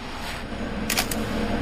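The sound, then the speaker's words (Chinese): A camera shutter fires while photographing a dissected insect specimen, a quick double click that stands out over a faint low hum. “说完了，拍照。”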